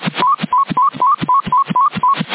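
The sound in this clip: Electronic PMR walkie-talkie style call tone received on a CB radio channel: a rapid, steady run of many short warbling tone bursts, each stepping slightly upward in pitch, with a thin, band-limited radio sound.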